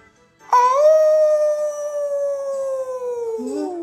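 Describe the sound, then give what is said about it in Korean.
A wolf gives one long, sustained howl that holds a steady pitch, then droops and wavers lower near the end, heard alone and fairly loud. “어디서 늑대 울음소리가 나잖아.”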